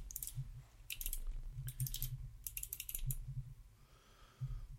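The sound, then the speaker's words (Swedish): Fingers type on a computer keyboard in a faint, rapid patter of key clicks. The clicks come in several short bursts with brief pauses between them, over a low background hum. “Varför sitter jag skriva in det här nu för?”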